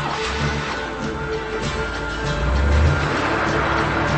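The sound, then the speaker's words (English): Car engine as the car pulls away, a low, steady motor hum that grows a little louder partway through and holds to the end. “She gets in a car and pulls away.”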